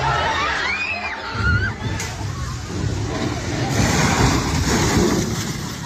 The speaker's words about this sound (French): On voit des lycéens s'enfuir en courant alors qu'un 4x4 arrive en face à vive allure. Le véhicule s'arrête un instant, logo de la police nationale clairement visible, puis repart.